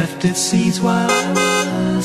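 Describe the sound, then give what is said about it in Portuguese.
A car horn with a dying battery honks weakly: a string of thin, wavering tonal toots whose pitch wobbles and sags, giving a mournful, crying quality. “E chega uma hora que ó, a bateria acaba e ele não consegue nem buzinar. É, já não vai mais. Parece um choro.”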